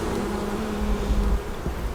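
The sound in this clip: Honey bees buzzing at the hive as a formic acid varroa mite treatment is prepared: a steady, dense, low droning hum that carries on without pause.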